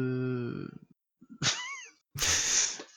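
A cat meowing in a few separate calls, starting with a steady, tonal cry, then a short bending meow, and ending with a harsh, noisy, drawn-out yowl; no one speaks.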